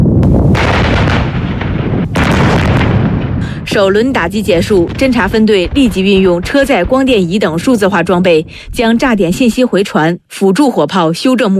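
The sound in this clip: Howitzer and rocket artillery fire during a military exercise: heavy, broad booming blasts fill the first few seconds, then a voice speaks at length over the continuing rumble of the guns.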